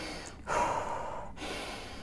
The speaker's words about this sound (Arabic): شهيق زفير عميق 30 مرة، اوكي، وبعدين آخر مرة يطلع زفير ويسكت يعني يحبس النفس